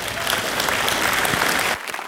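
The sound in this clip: Audience applause welcomes a guest speaker, a pastor, to the stage: a steady, dense wash of clapping that holds level for under two seconds, then drops off sharply into scattered, fading claps.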